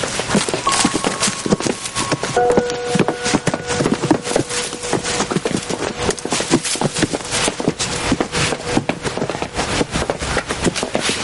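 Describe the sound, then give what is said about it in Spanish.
Footsteps of drunk men stumbling up stone stairs toward a house: many hard, irregular steps over a constant dense noise, with a few steady tones sounding partway through. “Alcanzan a Bocas que sube unas escaleras de piedra hacia la casa.”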